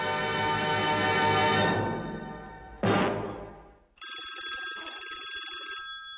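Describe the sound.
A telephone rings for an incoming call in a few loud, bright bursts of bell-like ringing with short gaps between them, heard alone without voices.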